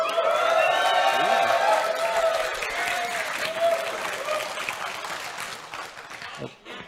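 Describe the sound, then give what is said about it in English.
Live audience cheers and applauds to vote for the Tavarin Light Fighter option, loud voiced whoops over clapping at first, then the noise gradually thins and fades toward the end. “So for the Tavarin Light Fighter C, let's have some noise.”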